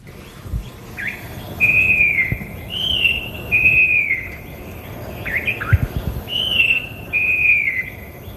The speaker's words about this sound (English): The loud song throughout the cuts coming from the falcated wren babbler